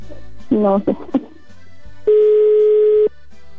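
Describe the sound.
An unanswered telephone call: a steady mid-pitched ringback tone holds for about a second alone, after a short burst of voice-like tones, with nobody picking up before voicemail.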